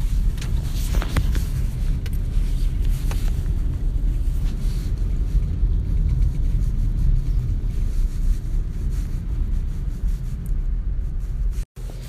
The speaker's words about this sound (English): Hey, well, it's lunchtime, and I am driving home, so I thought I would talk some more,